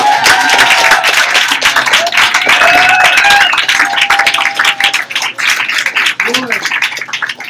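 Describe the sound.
An audience claps and cheers for a poet being welcomed at a poetry reading. Dense, loud applause mixes with voices and whoops, then thins into scattered claps toward the end.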